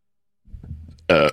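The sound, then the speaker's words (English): A single loud, voiced burp bursts out for a fraction of a second, preceded by a softer, low grumbling rumble in the throat. “Excuse me. Sorry. I really shouldn't. I was just thinking and I was distracted and then I burped.”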